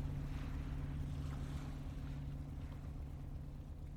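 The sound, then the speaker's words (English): A boat approaching a jetty on the water gives a faint, steady low engine drone, mixed with a constant wash of water and wind noise. “I can see the boat now, as it is approaching the jetty, and know that my ride is here.”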